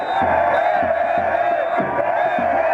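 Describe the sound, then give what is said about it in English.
A revolutionary crowd in a square in Egypt roars with excitement, singing and shouting slogans, a dense, steady wall of voices over a rhythmic chanting pulse. “It's a roar of sound because everyone's so excited and they're singing songs of the revolution and they're shouting slogans.”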